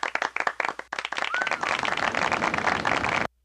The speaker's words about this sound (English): We need to give us some good applause for that.